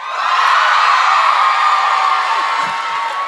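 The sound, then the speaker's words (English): At a live show, an audience cheers for the town of Vacaville: a sustained roar of crowd cheering and whoops, loud and steady throughout. “Never before has anyone cheered for Vacaville.”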